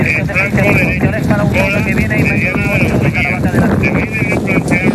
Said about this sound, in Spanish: Como puedes escuchar, el fuerte viento y las condiciones del terreno tan seco han complicado mucho las labores de extinción